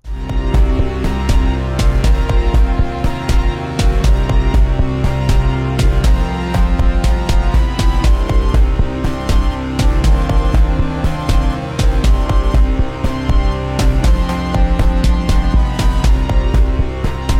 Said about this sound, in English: Basically a siren-y synth sound plus added drums to sort of bring home the point that you're low.